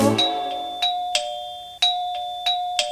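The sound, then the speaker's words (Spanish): A doorbell rings with bright two-tone chimes, struck about six times in an uneven rhythm, each ring loud and clear and then fading, with no voices. “¿Qué es? El timbre alguien tocó.”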